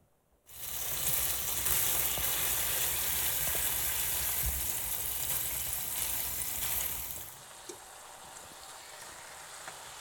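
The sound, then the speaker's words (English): Sizzling of bacon strips frying in olive oil, a loud, steady hiss that starts after a brief silence and runs for about seven seconds before dropping abruptly to a softer, quieter sizzle. “so I got a little olive oil in there. And we'll see if that's enough. I think it will be, but I'm going to put some strips of bacon in here.”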